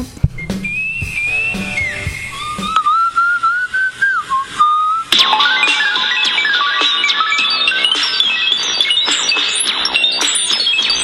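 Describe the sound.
Moog synthesizer music, opening with whistle-like lead tones that glide and bend in pitch over sparse accompaniment, then turning into a denser, busier passage of rapid bright notes that continues loudly to the end.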